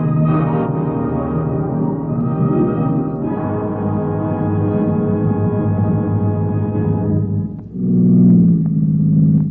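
A stolen police sedan engine drones under hard driving, a loud, steady rumble with a brief dip near the end before it surges back.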